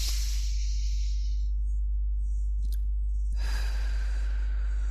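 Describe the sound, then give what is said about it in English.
A slow, deep breath drawn in through the nose, heard as soft airy rushing that fades out, followed later by another stretch of breathy noise, all over a constant low hum. “Be aware of your breathing and let yourself breathe slowly and deeply. Breathe in deeply through your nose.”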